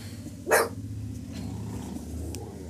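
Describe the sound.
A dog gives one short, loud bark early on, followed by a low steady background hum with no further barking.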